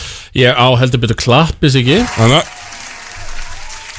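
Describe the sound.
A voice speaks briefly, then steady applause takes over for the last second and a half, softer than the speech before it.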